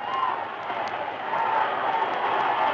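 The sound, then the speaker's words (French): Huge Havana crowd shouting while awaiting Fidel Castro: a dense, steady roar of many voices that swells slightly and stays loud throughout. “Écoutez, écoutez-les crier. Nous attendons Fidel Castro. Devant moi, c'est une véritable mer humaine.”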